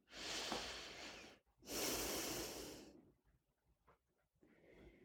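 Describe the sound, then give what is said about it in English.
Slow, deep breathing during a guided relaxation meditation: two long, hissing breaths, the second a drawn-out exhale, followed by softer, quieter breaths. “Breathe out again, a long exhale. Breathe in the love of God surrounding you like air.”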